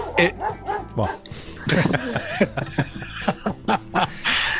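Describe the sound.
Dog barking on a rock radio program: a string of short, uneven barks and yips mixes with voices talking, the bursts coming in a rapid, irregular rhythm.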